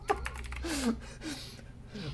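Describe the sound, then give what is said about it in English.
Fingers type on a computer keyboard in a few quick, crisp clicks at moderate volume. A person's voice briefly sounds over the typing. “I went to put OLED and then you said light, so I typed light.”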